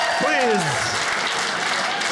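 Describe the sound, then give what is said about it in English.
Audience applause, a dense and steady wash of clapping that fills the whole clip, with a voice heard briefly over it near the start. “Please don't clap for that.”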